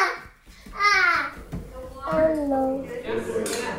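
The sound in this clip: A talkative one-year-old baby babbles in a few short, voiced bursts with rising and falling pitch, fairly soft.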